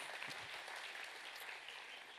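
Crowd applause during a sermon, a dense, steady wash of clapping that stays fairly faint and even across the whole clip.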